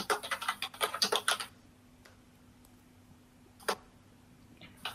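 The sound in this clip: Rapid typing on a computer keyboard, a quick run of keystrokes for about a second and a half, then near-quiet with a few isolated faint clicks.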